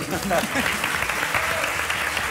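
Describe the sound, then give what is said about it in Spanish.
A group of people clap for one another, a steady, dense clatter of applause with voices audible underneath. “esto es un homenaje a la nada, que es aplaudirnos entre nosotros”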